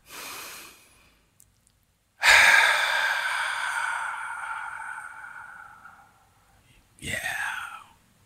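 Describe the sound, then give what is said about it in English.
A slow, deep breath taken alone: a long, soft, airy inhale that gradually fades, followed after a pause by a shorter, rougher exhale. “Let's begin by taking a deep breath.”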